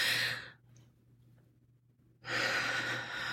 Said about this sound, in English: can we like just take a deep breath? So like, breathe in deep.